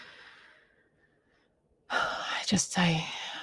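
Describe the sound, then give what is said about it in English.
A deep breath comes after a quiet, fading hiss and a near-silent pause: a strong, airy rush of breath lasting over a second, with a slight breathy voiced edge near the end. “I took that deep breath because I just feel like there's more room to breathe.”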